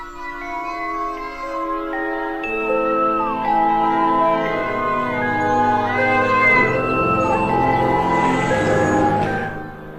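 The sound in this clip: A cat meows and yowls without a break, used as a sound effect in a horror story. Its drawn-out, wavering cries stay loud and slide up and down in pitch.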